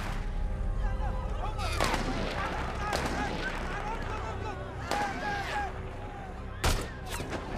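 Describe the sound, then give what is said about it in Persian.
Gunfire aimed at people: a few sharp, cracking shots burst out at uneven intervals over a constant dense rumble of noise, with voices mixed in. “وایسا وایسا، دارن به مردم شلیک میکنن. چرا دارن به اونو شلیک میکنن؟”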